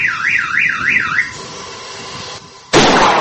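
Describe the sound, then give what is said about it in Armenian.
Anti-hail station in a village sounding its warning signal, a warbling siren that swings up and down about four times, then a steadier tone, ending in a sudden loud blast as it fires. “SMS հաղորդագրություն ուղարկելուց հետո այն սկսում է գործել ու նախազգուշական ազդանշանից հետո կրակում է”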